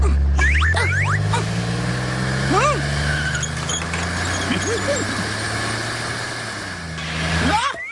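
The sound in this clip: A racing car's engine runs with a steady low drone, swelling louder toward the end, while brief voice-like vocal sounds rise and fall over it.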